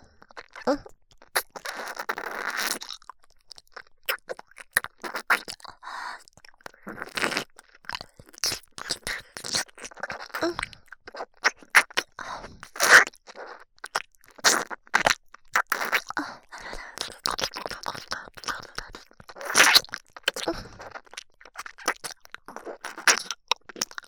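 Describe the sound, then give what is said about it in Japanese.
Wet ear-licking ASMR mouth sounds right at the ear: licks, smacks and slurps in a long, irregular stream of many soft bursts, some louder and crisper than others, with no speech. “その証拠に、耳舐め、うまいでしょ？”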